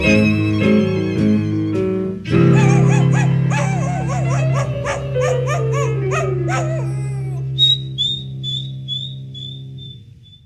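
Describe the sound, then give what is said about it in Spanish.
A dog yelps and howls: a few sustained, tonal notes give way to a run of short, high yips with wavering pitch, then thin, high whines that fade out. “Échale el pato a ese pinche perro”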